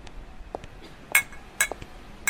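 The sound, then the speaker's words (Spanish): Glasses clink lightly as lemonade is served, a few bright, thin chimes spaced out over faint background noise. “Aquí está la limonada que me pediste, Cruz. Gracias, mija. Agarra tu vaso, Alex.”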